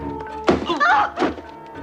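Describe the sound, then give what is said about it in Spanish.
A dull thud as a police sergeant strikes Gandhi in the stomach, one short heavy impact followed by a brief strained vocal sound. “El sargento le golpea en el estómago tumbándole.”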